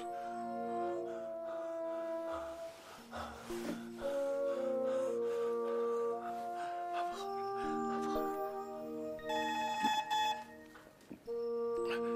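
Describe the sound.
A telephone rings with an incoming call, playing a melodic electronic ringtone. Stepped beeping notes change pitch continuously for about twelve seconds.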